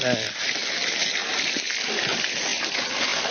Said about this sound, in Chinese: 这个甲鱼抓回来了，就要首先第一步把它冲洗干净，背上也要冲干净